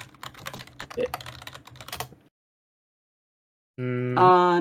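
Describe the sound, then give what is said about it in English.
A search being typed on a computer keyboard: a rapid run of many crisp keystrokes for about two seconds, then silence, then a sustained, steady tonal sound. “Can you Google? Just type in butter cookie.”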